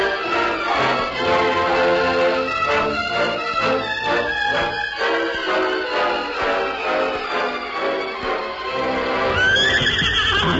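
Horses of a freight wagon team in a wagon yard before sunup, whinnying and neighing throughout over a dense, steady bed of sound, with a brighter burst near the end.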